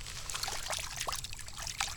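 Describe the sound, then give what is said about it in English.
Creek water trickles and splashes while a dirty orange golf ball is rinsed clean. A steady, soft gurgling wash carries small splashes throughout, with no talking. “It's a little bit dirty, so let's wash it off.”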